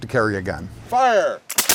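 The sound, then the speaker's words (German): Two sharp, loud reports from historic militia-era firearms loaded with powder only and no bullets, cracking in quick succession near the end. “Gefeuert wird mit Pulver, nicht mit Kugeln. Gezielt wird auf die Baumwipfel, natürlich nicht auf die Köpfe der Gegenüber.”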